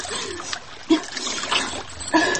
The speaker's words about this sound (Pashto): زه به مې مخ باندې یو څو لپې اوبه اچوم